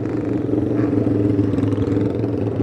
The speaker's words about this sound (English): That's a nice little T500 Suzuki